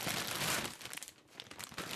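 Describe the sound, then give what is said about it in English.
A package is ripped open by hand, its paper wrapping crinkling and tearing in a busy rustle that thins in the middle, then picks up again with crisp crackles near the end. “So I'm opening it right now. Why is she opening it? She's ripping it up.”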